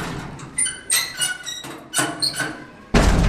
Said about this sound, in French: Et du coup, on va ouvrir la trappe.